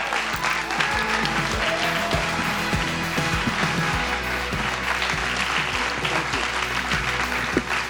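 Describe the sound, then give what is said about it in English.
A church audience applauds loudly to welcome a pastor to the stage. The clapping is dense and continuous, holding at a steady level throughout with no break. “please, let's do give Pastor Charles Niemann a great One Cause Church welcome tonight.”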